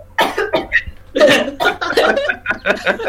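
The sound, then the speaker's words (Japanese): A person splutters through a choking coughing fit, as if on smoke from a silver kiseru pipe, with many harsh, rapid bursts in uneven clusters and barely a pause between them. “めっちゃむせてる。”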